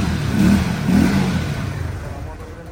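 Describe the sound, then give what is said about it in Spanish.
A motorcycle engine being started and revved: two short swelling revs in quick succession, then steadier mid-pitched running that slowly fades. “Vamos a prender un momento la moto para llevar.”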